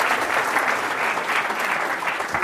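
Applause from an audience welcoming a surprise guest onstage: a dense, steady wash of clapping hands that holds at an even loudness throughout, with no voices over it.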